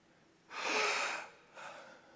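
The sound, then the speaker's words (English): A person imitates someone nearly drowning with a deep gasping breath: a long, loud, airy intake of air, followed after a short pause by a shorter, softer second breath. “I breathe like somebody that takes a breath when they thought they were going to drown.”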